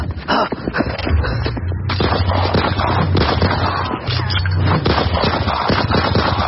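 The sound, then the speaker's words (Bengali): Gunfire from two shooters pulling guns from their pockets and opening fire on a group: a loud, dense barrage of many overlapping shots and bursts that continues without a break. “মুহূর্তে নিজেদের pocket থেকে বন্দুক বের করে বাকিদের ওপর গুলি চালাতে শুরু করল দুজন।”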